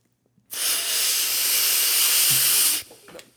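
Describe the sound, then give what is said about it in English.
A long, loud, steady inhaling hiss as a whole bowl of Superman OG cannabis is smoked in one hit. It lasts over two seconds, cuts off, and a few faint small noises follow. “He just smoked the whole fucking bowl in one hit.”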